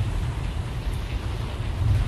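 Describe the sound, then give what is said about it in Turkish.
Heavy rain pours down in a dense, steady hiss with no distinct drops standing out, holding an even loudness from start to finish. “Yağmura bakın. Ne kadar şiddetli yağıyor böyle. Gökyüzünden sel boşandı sanki.”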